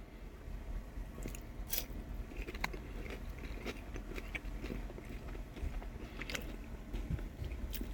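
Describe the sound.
Chewing on a sweet and sour snack, with faint, continuous mouth noise and many small crunches and bites scattered throughout.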